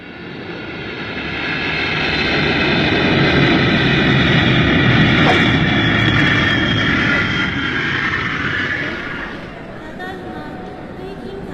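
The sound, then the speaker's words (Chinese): Aircraft engines roar through the ambience at Narita airport, a broad steady rush that swells over several seconds, holds, then fades toward the end. “这成田机场可真大呀”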